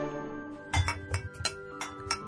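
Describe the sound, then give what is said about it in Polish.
Drinking glasses clink together in a few bright, ringing taps, each with a short lingering tone, quiet and irregularly spaced, with no voices. “Ale brzęczą te szklanki, to jest właśnie to granie pewnie?”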